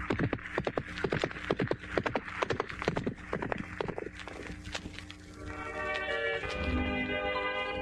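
Horse hooves clip-clopping in a quick, steady rhythm, with many sharp hoof strikes over the first five seconds, then giving way to a sustained tonal sound.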